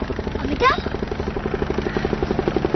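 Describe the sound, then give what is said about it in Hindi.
Helicopter rotor chop, a rapid, even pulsing beat that holds steady through the whole clip, with a brief voice-like sound rising over it early on. “Amitabh का helicopter Amitabh का helicopter”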